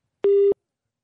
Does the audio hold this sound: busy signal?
yes